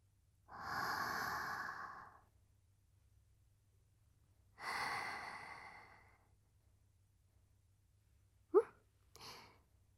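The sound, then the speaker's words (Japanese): Slow deep breathing comes as two long, drawn-out breaths separated by quiet pauses, followed by a couple of short, sharper breath sounds, all soft and with no talk. “ほら、一旦深呼吸しましょう。”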